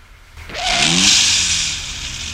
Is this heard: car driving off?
yes